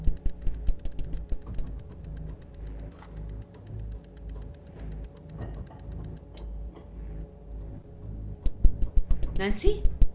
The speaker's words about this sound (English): You can stop winding the crank now.